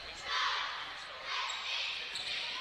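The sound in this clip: A basketball is dribbled on the court during a game, its bounces faint and regular beneath a steady wash of background noise.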